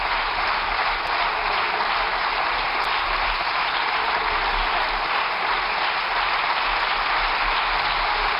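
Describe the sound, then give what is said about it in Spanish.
Sustained applause from Socialist Party deputies and government members in a parliamentary chamber. The clapping is dense, steady and loud, with no voices. “con los aplausos de los diputados y las diputadas del Partido Socialista”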